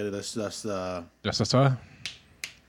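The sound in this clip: Sharp, crisp finger-snap clicks ring out after a stretch of people talking.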